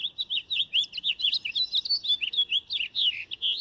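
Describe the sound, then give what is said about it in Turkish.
A common nightingale sings rapid, varied phrases of high chirps and whistles. The short bursts follow one another almost without pause, clear and alone with no other sound. “O ses bülbülün en tipik seslerinden biri.”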